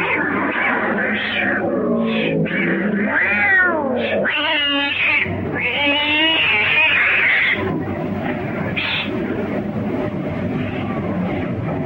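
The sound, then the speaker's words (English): Many cats meow and caterwaul as they flee from under a bunk in a cabin, their overlapping yowls and cries loud and continuous from start to finish. “A swarm of cats flee from under the bunk.”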